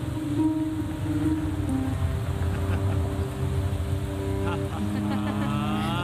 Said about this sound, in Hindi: चलो जल्दी करो, जल्दी बारिश हो रही है।